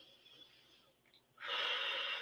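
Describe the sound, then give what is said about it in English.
A faint, deep breath in and out during a relaxation exercise: a soft airy hiss, a brief pause, then a louder, fuller rush of breath that holds steady. “So let's take a deep breath and let it out.”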